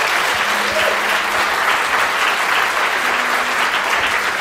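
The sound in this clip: Studio audience applause: dense, steady clapping that holds an even, loud level from start to finish.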